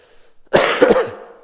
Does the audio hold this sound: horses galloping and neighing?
no